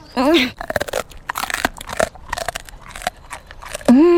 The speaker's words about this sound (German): Und jetzt gibt es noch ein Tapferkeitsleckerchen.